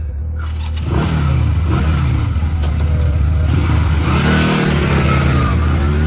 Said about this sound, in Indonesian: Aku mulai melajukan motorku dengan kecepatan tinggi agar aku cepat sampai menuju rumahku.